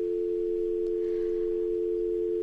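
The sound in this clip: A telephone tone sounds after a call is cut off. It is a single steady hum at one pitch, unbroken and fairly loud for the whole stretch, with no voices.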